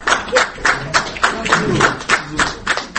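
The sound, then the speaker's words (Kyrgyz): Applause rings out at an event honouring people with disabilities. It is a loud, rhythmic beat of clapping bursts that repeat about three times a second and hold steady throughout. “Мына ушундай шатырата кол чабуулар”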